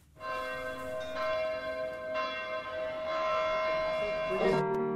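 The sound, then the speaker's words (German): Church bells ring at the opening of a pop album track, with sustained, overlapping metallic tones tolling steadily through the whole stretch and no voices. “Aber es beginnt erst einmal mit Kirchenglocken und die läuten nicht gerade zu einer Hochzeit.”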